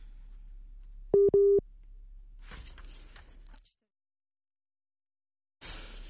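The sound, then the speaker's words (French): A telephone tone sounds after a call line dropped: two short, steady electronic beeps close together, then a stretch of hissy line noise, a cut to silence and more hiss. “Je crois que malheureusement, la ligne a droppé.”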